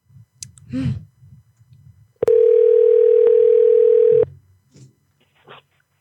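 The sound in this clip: A telephone ringback tone while a call is returned: one steady, unbroken electronic tone lasting about two seconds, with brief talk before and after it.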